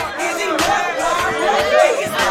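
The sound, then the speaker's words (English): Loud crowd noise from a packed house party where young men and women are dancing and partying: shouting, whoops and overlapping chatter hold steadily throughout. “The house is packed with young African-American men and women dancing and partying.”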